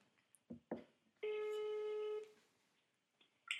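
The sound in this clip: A phone call ringing out, with one steady, buzzing ring tone lasting about a second, preceded by a couple of short clicks and followed by a brief, faint blip.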